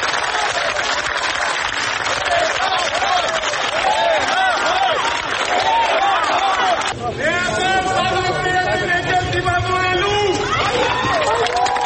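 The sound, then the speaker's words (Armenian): A gathered crowd greets the Catholicos with applause and calls: clapping mixed with many voices, then a clear voice talks over the steady crowd noise through the second half. “Կաթողիկոսն ինքն այս թեմայով լրագրողների հարցերին չպատասխանեց, սակայն ժամանման սրահից դուրս եկավ, հավաքվածների ծափերն ու կոչը նրան ստիպեցին կանգ առնել մեքենայի մոտ։”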